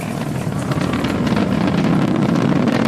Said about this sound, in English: We're into the throttle down, into the throttle bucket. Stage one, throttle down.